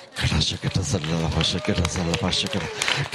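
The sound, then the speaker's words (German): Feet stamping on the floor from a church audience during a sermon, many dull thuds in an uneven rhythm that sit beneath loud, continuous preaching. “stampf mit deinem Fuß auf, links und rechts, stampf auf”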